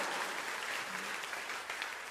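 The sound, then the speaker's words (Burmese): Congregation clapping hands in praise during a church service: a soft, continuous patter of many hands that stays even from start to finish. “လက်ခုပ်တီးလက်ပြားရဲ့နှုတ်ကပတ်တော်အတွက်ချီးမွမ်းကြရအောင်”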